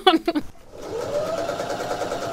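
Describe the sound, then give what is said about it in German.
Sewing machine running: after a brief voice at the start, a steady mechanical whir builds up and hums on evenly to the end. “Ich stehe früh auf, sitze an der Nähmaschine und dann nehme ich die dann abends wieder mit im Auto nach Hause, dass ich da weiterarbeiten kann.”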